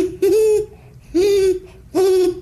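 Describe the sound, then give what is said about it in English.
A human voice imitates a great horned owl with three loud, low hoots, each about half a second long and evenly spaced, with short silences between. “And what about the owl you mentioned? The great horned owl?”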